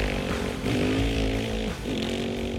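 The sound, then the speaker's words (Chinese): An off-road motorcycle engine buzzes loudly and steadily and revs up in two quick surges. “接着杰内也顾不上戴上安全帽，就马上发动了越野机车逃逸而去。”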